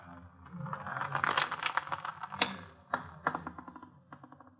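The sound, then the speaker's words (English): Rattling clicks from a policy lottery wheel being turned: many quick, dry ticks and scrapes in an irregular stream, building to a dense clatter and then thinning into spaced, separate clicks. “All right, brothers, you've bought your cards. We'll turn the wheel again.”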